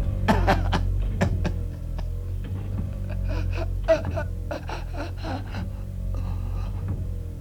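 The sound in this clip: A man breathes fitfully, with many ragged, irregular gasps and strained, moaning inhalations following one another in uneven bursts over a steady low hum.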